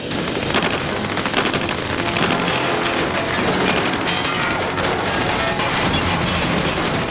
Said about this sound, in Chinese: 德军的机枪手从水塔上面突然开始向我们猛烈地扫射。